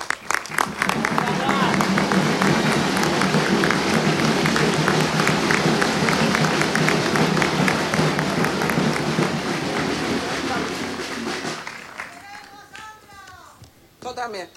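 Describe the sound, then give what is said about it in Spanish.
Loud applause from an audience at an event against impunity, a dense, sustained wash of many clapping hands mixed with crowd noise that slowly fades out before a voice begins speaking near the end. “Por eso vamos a escuchar y vamos a recibir con un fuerte aplauso las palabras de la compañera de Sandra Rodríguez.”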